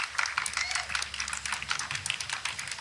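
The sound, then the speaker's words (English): Sparse clapping at a reception for the president as he walks a long way up to the podium: a thin run of sharp, separate claps at an uneven, modest pace. “That's not, what you're hearing is not just droplets of water hitting stone. You're hearing just like one person clapping.”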